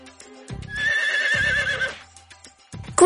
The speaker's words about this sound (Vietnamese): Ngựa sừng đầu đàn.